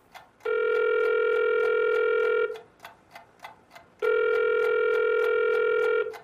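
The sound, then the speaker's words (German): A telephone call being placed from a home: two long, steady ringing tones separated by a short gap, with faint, regular ticking running underneath throughout. “Wenig später ist Lukas' Vater wieder in seiner Wohnung und ruft Leopold an.”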